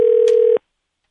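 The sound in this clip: A single steady telephone keypad tone sounds as a number is dialed. The flat, buzzy note holds for about half a second, then cuts off abruptly into silence.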